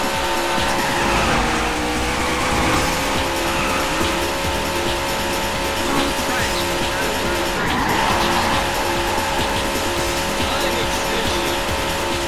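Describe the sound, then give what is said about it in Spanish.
Race car engines roaring as a race gets underway, a dense, continuous, loud roar with steady loudness throughout and a hint of tire squeal. “Gentlemen, start your engines. And they're underway.”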